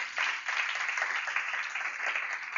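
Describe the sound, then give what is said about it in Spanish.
A church audience applauds, giving a steady, dense wash of clapping that stays at an even level throughout without a clear break. “¿Cuánto puede dar un aplauso a Dios?”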